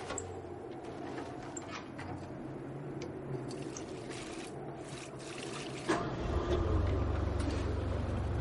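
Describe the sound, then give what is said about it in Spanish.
Petrol is poured into a generator as a steady liquid trickle, then a low, continuous engine drone starts up and holds louder toward the end. “Ahora echa gasolina al generador y se encienden unas luces de la entrada.”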